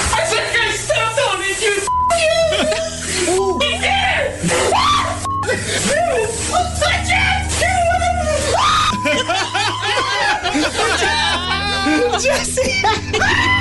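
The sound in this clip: A man shrieks and yelps in high-pitched bursts at a cane spider in a recorded video, with gasps, whimpers and snickering laughter mixed with other voices throughout.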